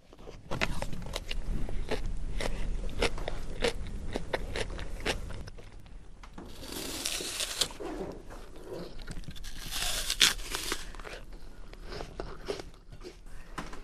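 Biting and chewing a cucumber: steady, wet, crackling crunches, with many sharp snaps during the first half and softer, continuous chewing afterward.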